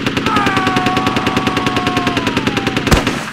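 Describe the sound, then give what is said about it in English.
Automatic gunfire from an M16 rifle on full automatic, a long, fast, evenly spaced stream of many loud shots ending in a sharper crack. “a blaster yammered on full automatic. At the sound of the mutie colliding with Carnes, Brassard spun and lit off half of a 30-round magazine from his M16.”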